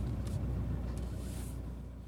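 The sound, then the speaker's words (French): Low, steady engine rumble from a car being parked, holding a constant drone with no clear pitch change. “Attends, je vais me garer là.”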